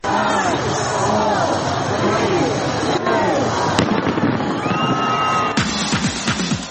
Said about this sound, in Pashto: د استرالیا سیدنی ښار چې په یوه ورځ یې په کورونا وایروس د خورا ډیرو کسانو د اخته کېدو پیښې ثبت کړې وې د 2020 کال د هرکلي لپاره پکې خلکو اورلوبې وکړې.